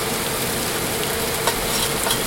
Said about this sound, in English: And you don't want to move it right when the meat hits the bottom of the pan. You want to wait for it to sort of set and cook a little.